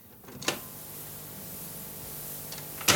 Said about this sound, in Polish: przewijanie i słuchamy za chwilę.